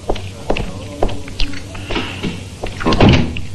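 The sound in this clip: A door opens or closes in a quiet indoor scene, heard as a few dull wooden thumps and clunks that end in a louder, fuller knock near the end.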